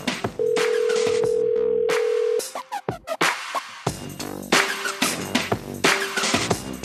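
A telephone dial tone holds steadily for about two seconds before a quick run of dialing tones, followed by busier sound with a couple of short, faint tonal bursts as the call is placed.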